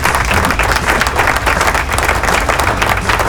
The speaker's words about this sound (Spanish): Aplauso.